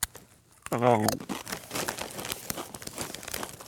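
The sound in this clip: Crinkling plastic as a bag of sweet and tangy barbecue Doritos is opened: a brief voice, then continuous rustling and crackling with a tearing edge, fairly loud and close.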